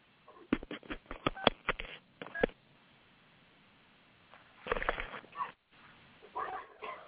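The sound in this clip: A telephone being dialed: a quick run of short, sharp beeps with a narrow, phone-line quality, followed by quieter scattered noise.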